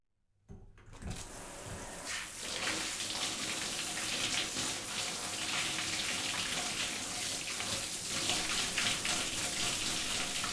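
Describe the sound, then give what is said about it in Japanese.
Warm running water rinsing shampoo out of hair. A short silence gives way to a steady, full splashing hiss that continues evenly to the end. “それではシャンプーを流しますね。”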